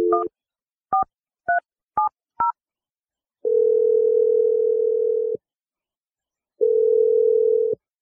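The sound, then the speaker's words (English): A telephone number is dialed with five short two-tone keypad beeps, each a different pitch in quick succession. Two long, even ringing tones follow, separated by a gap, and no voices are heard. “I'm going to dial her number. We'll see if she answers.”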